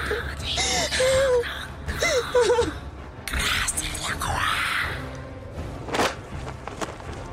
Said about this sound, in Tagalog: Napabalikwas ako ng bangon, habol-habol ang hininga at na-realize na panaginip lang pala yun.